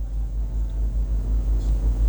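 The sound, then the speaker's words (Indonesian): Busy road traffic of motorcycles and cars at a four-way intersection, a steady low rumble of engines and tyres that continues without distinct passing events or voices. “Kota Banjarbaru, tepatnya di Jalan Simpang 4 Tugu Adipura, arus lalu lintas terpantau ramai, lancar. Didominasi oleh pengendara roda 2 dan pengendara roda 4.”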